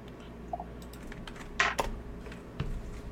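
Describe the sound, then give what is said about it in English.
Keyboard typing as names are written down: faint, scattered keystrokes in an irregular rhythm, with a brief louder cluster of clicks in the middle. “I will write those down for you.”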